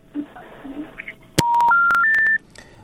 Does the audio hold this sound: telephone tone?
yes